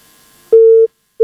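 Telephone busy tone after a dropped phone call: one loud, steady mid-pitched beep, then a short gap and the start of the next identical beep.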